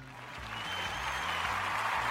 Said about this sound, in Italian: Un altro grande applauso!